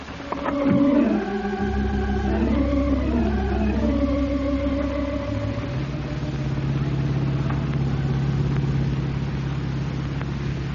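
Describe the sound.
A blue 1942 convertible drives on a highway. Its engine gives a low, even drone that runs steadily throughout, with a brief louder swell near the start.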